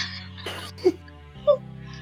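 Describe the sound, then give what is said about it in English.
Throat clearing from something caught in the throat: two short, rough bursts about half a second apart, moderately loud against a quiet background. “Sorry, something was caught in my throat.”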